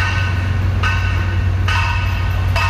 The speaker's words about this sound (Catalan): I això que hi ha uns elements de protecció damunt de la maquinària que rebaixen el soroll en 63 decibels